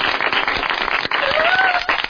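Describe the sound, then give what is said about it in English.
A round of applause given during a bank robbery, loud, brisk clapping that runs continuously with a short dip just past the middle before picking up again. “Let's give Tammy a round of applause.”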